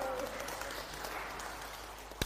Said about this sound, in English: Can you clap for her? Well done.